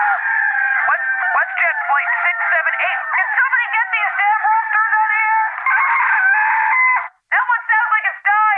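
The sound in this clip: Many roosters crowing at once in a dense, continuous chorus of overlapping crows, loud and sustained, broken by one brief gap near the end.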